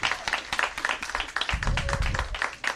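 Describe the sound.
Audience applause welcoming a speaker at a Recreate family gathering: dense, steady clapping that carries on through the whole stretch without a break.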